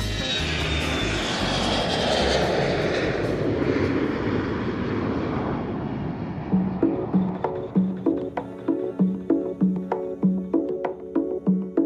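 Airplane taking off: a loud, broad engine roar that stays steady, then fades away over about six seconds as rhythmic plucked music with regular beats comes in and takes over.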